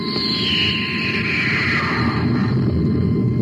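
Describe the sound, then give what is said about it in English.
A sci-fi space torpedo launches with a loud, steady rushing roar, while a whistling tone glides downward in pitch over about two and a half seconds. “Stand by to fire space torpedoes. Standing by, sir. I put our ship on the theoretical vector of the guided missile, Hap. And that bright dot in the viewscope should be the guided missile. Fire number one.”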